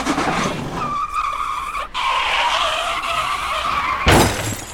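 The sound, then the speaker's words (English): A car driving on only three tires skids along with a continuous squealing, scraping roar over engine noise, ending in a louder, harsher burst near the end. “Okay, maybe I can make it home with just 3 tires. It's only about 1,000 miles. As long as I stay alert, I think I can figure out how to drive sorta diagonally, without hitting anything.”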